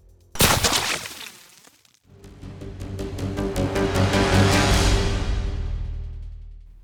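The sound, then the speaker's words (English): A rifle shot fired during an indoor fight lands as one sharp, loud crack with a ringing decay, followed after a short lull by swelling music that builds and then fades. “it gave Arihan a perfect moment of distraction to deliver a bullet through his head.”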